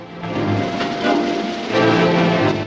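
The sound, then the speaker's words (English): A train moving off, a heavy rumbling clatter that grows louder in a few distinct steps as it gets under way. “Harry ushers Marenkov onto the train and climbs on, looking over his shoulder. The train moves off.”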